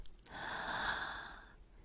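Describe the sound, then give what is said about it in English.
A single deep, slow breath drawn in: a soft, airy hiss that swells and fades over a little more than a second and is heard alone. “Now take a deep breath, slowly in”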